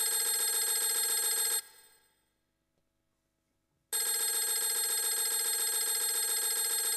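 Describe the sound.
A telephone rings in two long bursts split by a stretch of silence, a bright, dense, steady electronic ringing tone that cuts off sharply and resumes just as abruptly.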